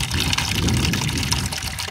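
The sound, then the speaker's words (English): Water runs steadily from a shared outdoor tap, a cement column with two faucets used by many households. The flow is a continuous hissing, splashing stream, fairly loud, with no pauses and no voices. “This is the tap that some 25 households have to share. It's basically a cement column coming out of the ground with two faucets attached.”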